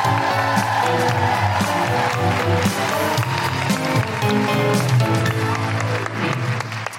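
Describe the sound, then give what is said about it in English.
A live audience in Sydney applauds and cheers as a guest is welcomed to the sofa, with woo-hooing voices over loud, dense clapping that stays strong throughout and fades slightly at the end. “Now please welcome her to the sofa with enormous guilty feminist woo-hooing noises, the incredible Jazz Money!”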